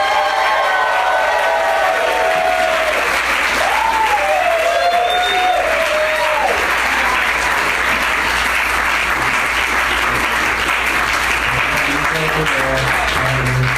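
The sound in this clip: An audience applauds to welcome guests onto a show, a loud, steady wash of clapping lasting the whole stretch, with some cheering and a whooping voice early on.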